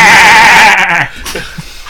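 A sheep bleats once, loud and quavering, with a wavering pitch that lasts about a second. It breaks off into faint, scattered noises.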